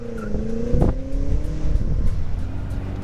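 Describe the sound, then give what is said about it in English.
Engine roar from a BMW M6 convertible doing a burnout with its launch control, a loud sustained engine note with steady harmonics and a short burst of harsher noise near the start. “perfectly managed burnout comes to you courtesy of the launch control system in the all-new BMW M6 convertible.”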